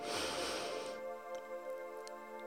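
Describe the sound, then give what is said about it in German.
A deep breath drawn in through the nose, a soft airy hiss lasting about a second during a guided relaxation exercise, followed by a quiet, steady tonal backdrop. “Und wenn du so weit bist, dann schließe deine Augen und atme einmal ganz tief durch die Nase ein”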